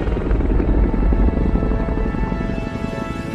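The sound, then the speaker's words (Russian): A helicopter turns and flies away, its dense rotor and engine roar steady and loud, with a slight easing toward the end and no voices. “поворачивает вертолет, и они улетают на закат.”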